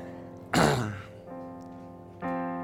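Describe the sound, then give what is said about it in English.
A single loud, rough snort bursts out briefly and fades, followed by a quieter, steady voiced sound from the same person. “I'm sorry, I don't need to snort.”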